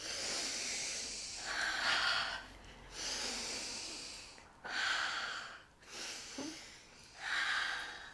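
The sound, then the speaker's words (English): Deep breaths drawn in and let out during a group breathing exercise: a few slow, airy rushes of breath rise and fall in turn, clear and moderately loud, with no talking over them. “Okay, three deep breaths, let's go. Yes, three deep breaths”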